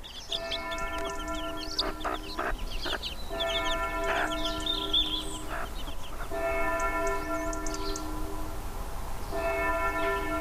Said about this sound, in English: They're too young to be separated, like, you know, they're only little chicks. They wouldn't survive at all without their mother